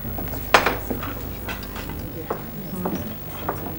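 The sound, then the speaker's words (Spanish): Ice cubes clinking as they are dropped into a glass with vodka at a wake, one sharp bright clink followed by several lighter taps and rattles scattered across the moment. “echa hielo con vodka en un vaso.”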